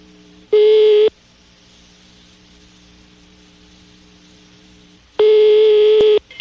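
Ringing tone on a telephone line while a call is placed: two long, loud buzzing beeps separated by a pause of several seconds, with a faint hum in between.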